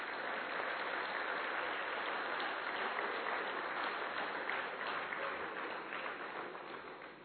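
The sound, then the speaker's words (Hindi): An audience claps for a performer at a live event, giving a fairly faint but steady wash of many hands that thins out toward the close. “चलिए तो आप मेरे लिए ताली बजा दीजिए।”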